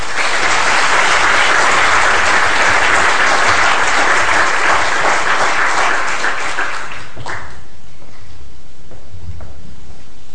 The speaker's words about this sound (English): can you join me in welcoming her to speak at the LSE on Copenhagen and the environmental issues.